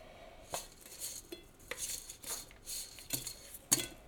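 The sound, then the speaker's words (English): Utensils clinking and scraping in a pan of crispy potatoes as they cook, with a few sharp metallic clinks over a steady faint hiss. “Listen, that is the crispy potatoes coming on.”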